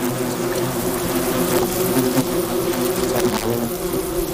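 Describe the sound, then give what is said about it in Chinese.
Worker wasps buzz in a dense, continuous drone of many wings, loud and unbroken for the whole stretch, with slight wavering in the hum. “胡蜂工蜂吃饱后，还会将分泌物分享给同伴。”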